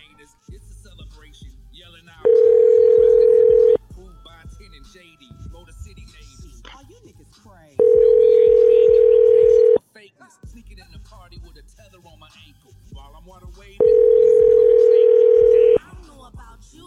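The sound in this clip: An unanswered telephone call ringing out: three steady, evenly spaced ringback tones, each lasting about two seconds, with quieter low noise in the gaps between them.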